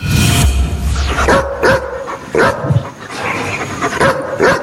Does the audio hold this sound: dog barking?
yes